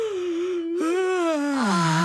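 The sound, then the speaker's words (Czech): Children yawning on cue during a bedtime exercise: a drawn-out, voiced yawning moan with a brief break near its start, holding a fairly steady pitch before sliding lower at the end. “Tak, holky a kluci, chce se vám spát? A zíváte.”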